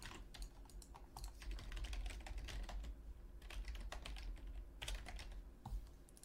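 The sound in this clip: Keyboard typing as quiz answers are entered, with many faint, quick key clicks in irregular bursts over a low steady background hiss.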